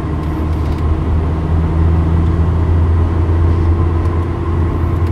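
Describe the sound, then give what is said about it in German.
Car engine driving on a road while overtaking: a loud, steady low drone with constant road rumble and no clear change in pitch. “Na, wenigstens kann ich jetzt überholen hier, glaube ich. Ja, ja. Ich muss mich erstmal aufs Überholen konzentrieren”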